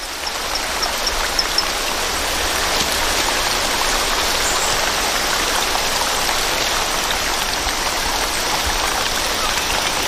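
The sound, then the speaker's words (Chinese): A loud, continuous rush of stream water near where torrent frogs gather: a dense, even roar that stays steady for the whole stretch without pauses. “水流的声音还是太大了，需要更强效的措施。”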